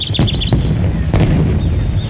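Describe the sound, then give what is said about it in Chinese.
Sporadic gunfire and artillery two hills away, heard on an Anhui war-zone hillside in early spring. A few muffled booms and cracks stand out from a constant rumbling background, with bird chirps near the start. “在相隔2个山头的地方，隐约响着零星的枪炮声。”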